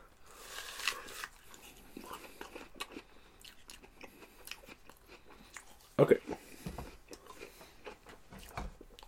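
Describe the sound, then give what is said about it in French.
Crisp bites into an Ambrosia apple followed by chewing, with a sharp, loud crunch standing out among softer crunching and mouth sounds while a person talks. “on va goûter la Ambrosia 8, 9. Un petit bite.”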